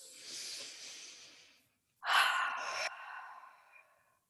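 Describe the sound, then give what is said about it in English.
Deep breaths taken during a guided eyes-closed exercise: a long, soft breathy rush, a short pause, then a louder, sharper sighing breath that fades out slowly. No talking. “We're just taking a deep breath.”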